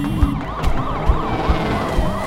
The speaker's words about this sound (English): Headlights and flashing police signals pulled into the parking lot